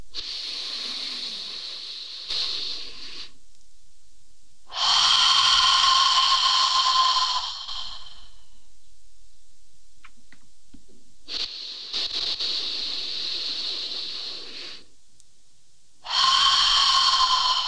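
Slow, deliberate breathing with exhales through the mouth: long airy breath sounds alternate with pauses, and the louder breaths stand out against softer ones. No voices.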